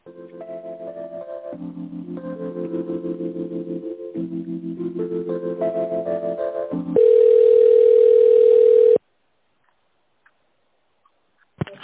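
Telephone line tones play while a call is transferred: a simple electronic melody of stepped, repeating notes for about seven seconds, then one steady, loud tone for two seconds, then near silence with faint clicks.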